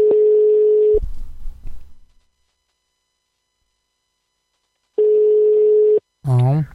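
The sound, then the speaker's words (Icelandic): A telephone ringback tone plays while a number is being called. It is a steady, level tone that sounds once, goes silent, then sounds again. A person's voice answers right after the second tone. “nú vona ég sé að hringi í rétt númer.”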